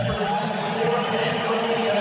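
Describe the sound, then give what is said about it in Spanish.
An Argentine stadium crowd keeps up a steady, dense roar as the loudspeakers announce a second yellow card and a sending-off. The mass of voices stays even and loud throughout. “Escuchen. Caliente público de Argentina, señores, cuando en los altavoces anuncia la segunda tarjeta amarilla y expulsionan.”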